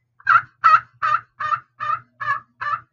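Loud turkey gobble made with a handheld turkey call: seven raspy, evenly spaced bursts in quick succession, each similar in strength and pitch, with no voices.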